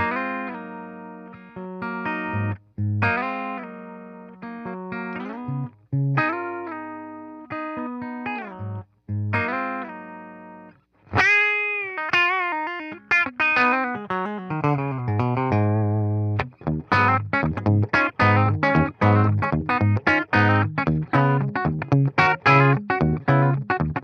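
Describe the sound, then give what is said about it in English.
Electric guitar played through a Fender Deluxe Reverb amplifier: sustained chords and single notes in short phrases separated by brief pauses, then a busier, denser stretch of rapid notes in the second half, with no voices. “Fender Deluxe Reverb.”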